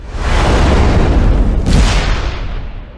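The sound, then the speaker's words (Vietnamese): A fireball suddenly erupts into a roaring explosion at a stairwell corner. The loud, broad blast holds for several seconds, surges again midway, then slowly fades. “Ông ấy vừa nói đến đó, tôi đã nghe thấy một tiếng nổ. Một quả cầu lửa thình lình xuất hiện từ giữa hư không”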